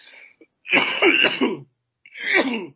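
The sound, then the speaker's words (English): Harsh, chesty coughing: a short rasp, then a rough fit of several throaty coughs, and after a pause one more loud cough burst. “excuse me, while I cough my guts up.”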